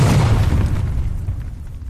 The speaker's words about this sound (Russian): Затем землю сотрясает первый глухой удар.